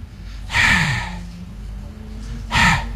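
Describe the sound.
Breathy letter H sound made by a voice as pure breath with no voicing, two short hissing exhalations about two seconds apart, clear and fairly loud over a low steady hum.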